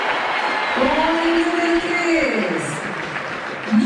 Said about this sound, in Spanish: Vamos a escuchar el aplausómetro de Emiliano Martínez.